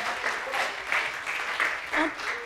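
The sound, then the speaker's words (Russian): Applause from an audience welcoming a speaker, a dense, even patter of many hands clapping, moderately loud and sustained throughout. “So let's give an applause to my brother.”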